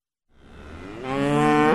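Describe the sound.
A single drawn-out moo from cattle at Riverview Dairy Farm, a dairy farm in Chippewa County, swelling steadily louder into a strong, clear bellow that holds to the end, with nothing else audible.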